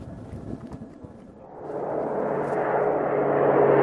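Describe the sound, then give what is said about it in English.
A C-17 military transport aircraft departs from the end of an airport runway, its deep jet roar building steadily in loudness and spreading into a broad, rushing drone. “Fighters count the number of C-17 aircraft departing from the end of the runway.”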